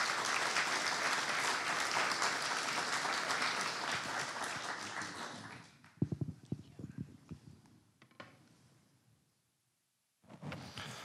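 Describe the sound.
A church audience applauds to welcome guests to the stage on a morning service, with loud, sustained clapping that thins and dies away about halfway through. A man's voice then speaks over the last scattered claps.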